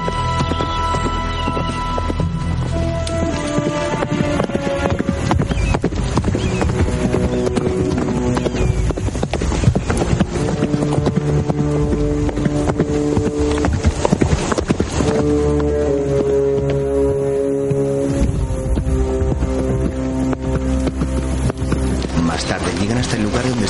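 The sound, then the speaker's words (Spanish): Horses gallop with rapid, steady clip-clop hoofbeats as riders cross an arid valley in a western film pursuit, running continuously under a sustained music score. “Las horas pasan y Gideon sigue galopando. Tras él, Carver y Hayes siguen su rastro por el árido valle.”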